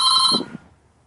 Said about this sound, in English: Whose phone is ringing? I thought I muted it.